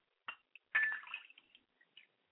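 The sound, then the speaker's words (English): Liquid poured out as a libation during a spoken ritual: a few faint, brief drips and splashes, then one longer trickling burst, followed by scattered soft drops. “Pouring libations to the east, I say Ashe. Pouring libations to the west, I say Ashe”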